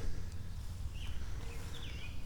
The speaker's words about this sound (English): Some robins are combating over here.